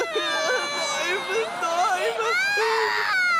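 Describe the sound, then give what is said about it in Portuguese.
A girl sobs and whimpers after a dental visit, her crying voice wavering and breaking in pitch through a few choked, tearful phrases. “Não te preocupes, querida. Ele põe as miúdas todas a chorar.”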